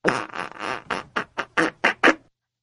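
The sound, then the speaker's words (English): Fart noises come in a rapid run of short, buzzy bursts with a laugh-like rhythm, the first few longer and blurred together, then separating into a quick sequence of punchy pops before abrupt silence. “So this is when you fart with every laugh.”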